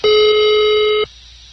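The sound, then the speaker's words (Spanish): A single loud ringback tone on an unanswered outgoing phone call, one steady pitched electronic note lasting about a second, then cutting off to faint line hiss. “A lo mejor le entró otra llamada, porque le estoy marcando y no contesta.”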